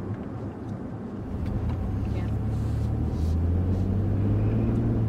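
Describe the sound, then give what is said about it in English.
Steady engine and road rumble from a car driving south of Houston, Texas, a low continuous drone that grows slightly louder partway through, with a deeper hum settling in toward the end. “we're driving around Texas together”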